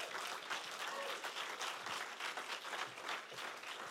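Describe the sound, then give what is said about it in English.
Church audience clapping to welcome a speaker to the front during an evening service: a faint, dense, continuous patter of many hands that stays level throughout without swelling or dying away. “And so come on, let's put our hands together, welcome her. Stand, jump to your feet.”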